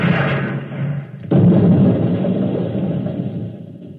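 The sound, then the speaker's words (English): Ten honor guard soldiers fire one volley at once with explosive bullets, making a sharp crack followed by a sustained rumbling roar. A dense, noisy bed of sound comes before it. “it's happened at exactly 11 a.m. 10 soldiers in the honor guard instantaneously fired their weapons into George of Xanthar. Apparently, explosive bullets have blown him to smithereens.”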